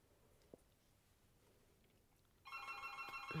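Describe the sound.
A telephone rings: after a long stretch of near silence with one faint click, a loud, bright, sustained electronic ring cuts in and carries on to the end.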